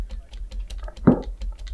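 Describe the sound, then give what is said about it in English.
Computer keyboard keys tapped over and over, the space bar and the five key pressed in a quick, uneven run of light clicks, with one louder thump near the middle. “I'm literally just space, pressing space and five a bunch just to scare Morg.”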